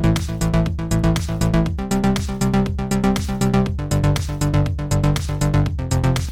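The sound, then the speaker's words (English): Arpeggiated synth pattern from the Alchemy arpeggiator set to up mode: a loud, fast, unbroken stream of bright, evenly spaced synth notes cycling in a steady rhythm, with no voices. “Well, it is exactly the same, but I'm using the ARP in Alchemy this time.”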